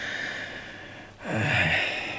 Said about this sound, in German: Tief einatmen.